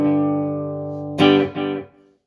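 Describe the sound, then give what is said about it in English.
A guitar plays through a stomp delay effect. A held, ringing note is followed by a sharp struck attack and one quick echo repeat, then the sound cuts off abruptly. “I think it's a really cool effect. It sounds pretty neat. So I can take that. Stomp delay.”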